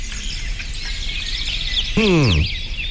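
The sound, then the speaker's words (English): Birds sing in light, high twittering chirps that repeat quickly and stay fairly faint over a low background hum. “listening to birds sing for 10 minutes can help get rid of your stress. Huh. Okay, let's try this. Cue the birds.”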